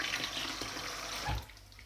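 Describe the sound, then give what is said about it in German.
Cold tap water running over freshly cooked nockerl dumplings in a sieve to rinse them, a faint, steady splashing hiss that drops away toward the end. “jetzt müssen wir den Locker gleich nur mit kaltem Wasser abschrecken.”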